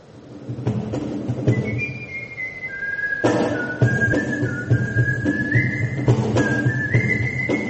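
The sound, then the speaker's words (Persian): Melodic whistling from whistle players at a gathering in Japan: high, pure sustained notes that step and slide between pitches in a continuous tune over a steady layer of background noise. “اولین گرده همایی نوازندگان سوت در ژاپن”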